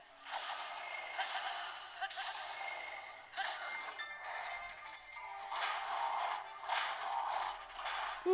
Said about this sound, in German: Und direkter Flurry Rush.